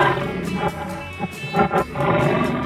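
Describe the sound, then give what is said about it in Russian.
A tiger snarls in a run of rough, rumbling growls that swell and break off, loud and harsh, with short gaps between bursts. “Вон он, тигр. Огрызается на нас, зрителей.”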